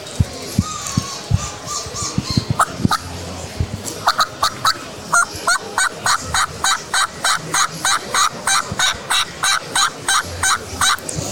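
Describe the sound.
A Cobb Cutter Series turkey call is blown, producing a long run of sharp, rapid, evenly repeated yelping cuts, many loud notes in steady rhythm.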